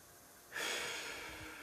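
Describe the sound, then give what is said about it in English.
A deep breath in during a mantra meditation exercise: a soft, airy inhalation hiss that starts suddenly and is held steadily for about a second. It is faint and heard alone. “Take a breath, breathe it in.”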